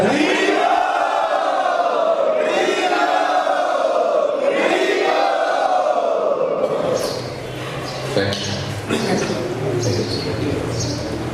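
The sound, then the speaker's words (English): Loud chanting from an audience in unison, a traditional welcome for a spiritual teacher arriving at a class: strong swelling vocal phrases repeat every couple of seconds, then the texture shifts to a rougher, more scattered crowd sound near the end. “We'd like to welcome Param Pooja Jayadeva Swami Maharaj in our traditional style by loudly chanting.”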